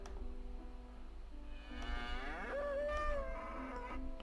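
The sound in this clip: A bull's long, drawn-out moo in a role-playing game scene, swelling for a couple of seconds over a steady low rumble before tapering off; fairly faint, with no talk.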